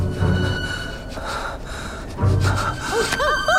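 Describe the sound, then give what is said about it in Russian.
Sniffing from a wolf guard in an animated scene: two noisy, snorting bursts of breath, one at the start and another about two seconds later, over a quiet tonal background with wavering tones near the end. “Он прокрадывается за охранника, который начинает принюхиваться.”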